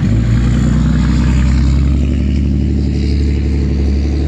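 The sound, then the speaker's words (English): A noisy truck passing by: a loud, continuous low engine rumble with rattling clatter that holds steady throughout, with no talking. “that was a noisy truck.”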